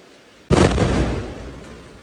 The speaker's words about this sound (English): Gaza resident Jihad Madhoun captured this airstrike on a home in the camp on September 11th.